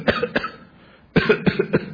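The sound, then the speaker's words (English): A few loud, dry coughs from an irritated throat, in two short clusters split by a quiet pause, with no talk around them. “the cough.”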